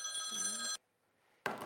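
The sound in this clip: A cell phone rings with a bright, steady electronic tone that stops abruptly, falls silent, then starts again briefly. The ring is quiet.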